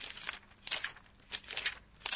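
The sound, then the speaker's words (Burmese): Paper pages being flipped: a few soft, crisp rustling bursts with quiet gaps between them, and no talk. “ဒီတန်းကစာရွက်တွေကိုလှန်လိုက်တဲ့အခါထွက်လာတဲ့တန်းပေါ့ ဟုတ်တယ်ဒါကိုအိုနိုမာတိုပဲနဲ့ဘယ်လိုဖော်ပြသလဲဆိုတော့ ပါရာပါရာ”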